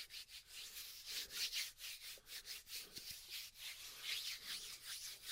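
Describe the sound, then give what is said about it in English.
Hands rub oil into skin down a calf and leg, making soft, quiet swishing strokes that repeat in a steady, rhythmic pattern. “Then we're gonna rub that oil in with my hands.”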